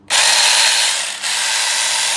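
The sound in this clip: A battery-powered rotary hammer drill from a budget kit whirs at high speed: a loud, steady, bright mechanical whine that dips briefly midway, then continues evenly.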